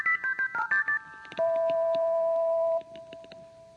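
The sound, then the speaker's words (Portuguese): A telephone dials a listener's home number: a quick run of short keypad beeps, then one long steady tone, all fairly faint with no voices. “Mas não importa, vamos ligar para a casa de outro ouvinte.”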